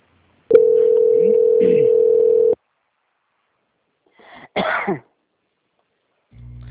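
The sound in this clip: A steady telephone line tone plays while a call is being transferred to another department. It holds for about two seconds, followed by silence and then a short burst of noise.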